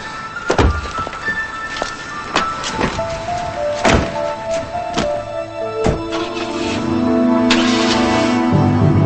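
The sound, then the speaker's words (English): Car door thuds as a woman gets into her car, several dull, heavy thunks spaced a second or two apart, followed by a steadier, louder rumble building toward the end. “He walks away, and she gets into her car.”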